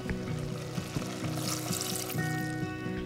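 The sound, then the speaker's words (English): Water pours into a simmering carrot mixture in a cooking pot, making a continuous splashing, bubbling rush with a steady, slightly pulsing texture. It is heard without any talk. “After the carrot mixture has simmered for 5 minutes, then it's time for the water”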